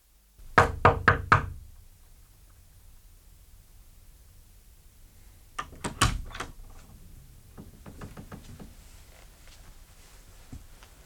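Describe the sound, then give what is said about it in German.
Knocking on a door: a quick run of four sharp raps, a pause, then another short cluster of raps over a faint hiss, with no talking. “Ich habe geklopft, Sie haben offenbar nichts gehört.”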